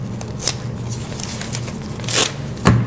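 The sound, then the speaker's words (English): Paper ripped from a notebook into two pieces makes a few short, scratchy tearing rasps, with the strongest rips toward the end. “I have a notebook. Okay, we'll try in the notebook. I'm just going to rip at 2 pieces.”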